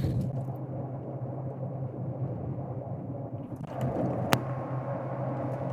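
Steady low rumble of a car being driven, a continuous engine and road drone heard alone with no talk, broken by a single brief sharp click partway through.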